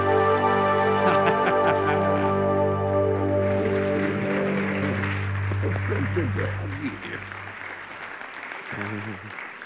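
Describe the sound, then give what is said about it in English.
Church audience applause welcomes a guest speaker with dense, steady clapping over held music, and the clapping thins and softens near the end. “Would you give a great big welcome to Dr. David Block?”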